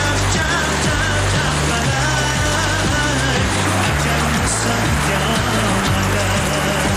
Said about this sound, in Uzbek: Mana chaqpalagimiz suvi mashatga keladi. O'sha yerdan kamida 100 metr 100 turbada mashinada to'la tushadi. Hozir endi ozroq suv kelyapti, shuning uchun yarimdan ko'proq tushyapti.